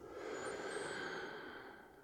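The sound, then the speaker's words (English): A long, full, deep breath drawn in through the nose, heard as a steady airy hiss lasting about two seconds, with no talk. “And with that, we take a long, full, deep breath in through the nose.”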